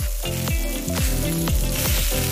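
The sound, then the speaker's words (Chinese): Pig trotters sizzle and drip fat on a barbecue grill at a busy night food stall, a loud, steady crackling hiss that carries on through the whole short moment. “烤架上滋滋冒油的猪蹄，”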